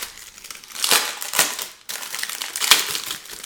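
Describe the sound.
Wax pack of trading cards being torn open by hand, a few bursts of crisp, loud crinkling and ripping wrapper with short pauses between, no talking.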